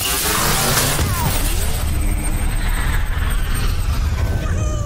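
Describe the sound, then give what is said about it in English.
Sound effects from the Crash Bandicoot On the Run video game, a loud, busy stream of whooshes, booms and sweeping tones that continues without a break for the whole stretch. “It's Crash Bandicoot On the Run.”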